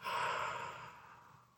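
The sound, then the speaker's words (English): A single cleansing breath let out through the mouth during a guided breathing exercise, a soft airy exhale that is fullest at the start and fades gradually over about a second and a half, heard alone. “take a breath in and let it out through your mouth”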